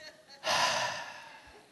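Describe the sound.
A deep breath drawn in: one airy, breathy rush that swells suddenly, holds for about half a second, then fades away. Quieter breathy sounds come before it.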